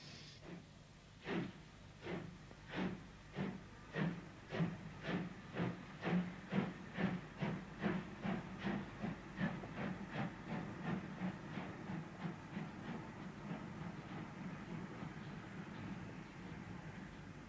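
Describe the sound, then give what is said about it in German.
A steam train hisses and chuffs, opening with a burst of steam before a long run of steady, rhythmic puffs that soften slightly toward the end, with no voices. “ich lasse den Zug sofort zurück nach Astapo. Sofort!”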